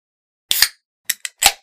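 A bottle of Sprecher black cherry fire-brewed craft soda with honey cracks open in a few sharp, hissing pops: a quick pair, then three more short bursts, loud and alone.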